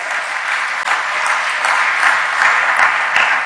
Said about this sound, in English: Lord, let's give God a hand clap of praise for all the singers up